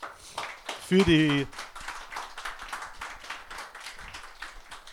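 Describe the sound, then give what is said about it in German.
Audience applause at a gathering, a dense patter of many hand claps at moderate level, with a raised voice ringing out briefly over it early on and talk mixed in. “Und ich dachte, jetzt müssen wir mal einen kräftigen Applaus”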